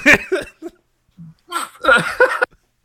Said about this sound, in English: it literally starts with hiccups.